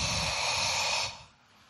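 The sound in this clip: Faint, soft breathy hiss as people exhale onto handheld mirrors to fog them. A single broad rush of breath lasts about a second, then drops away to near quiet.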